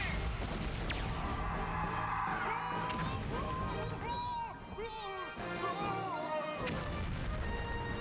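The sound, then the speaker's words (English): Missile fire and explosions from the Condor Galactazord in missile mode: a loud, dense, continuous barrage of blasts and crashes, laced with whooshing, swooping tones. “Condor Galactazord. Missile mode,”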